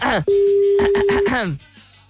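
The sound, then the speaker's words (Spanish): A single steady ringing tone on an outgoing telephone call lasts about a second, with a voice talking over it before and after. “Ya, estoy llamando, no sé ni siquiera si marqué bien. Ya, ahí sí suena. Ay, ahí sí suena”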